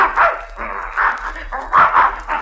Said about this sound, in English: there's that mad dog, Adolf. Look at that bear chasing him.